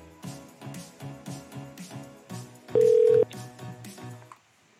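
A single ringing tone from an outgoing phone call, a loud steady beep lasting about half a second over rhythmic background music that cuts out just before the end.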